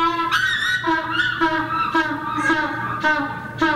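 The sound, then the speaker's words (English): A hungry African penguin at the New England Aquarium in Boston brays in a run of loud, nasal, harmonic calls, one after another with brief breaks between them. “That is the sound of a very hungry African penguin at the New England Aquarium in Boston.”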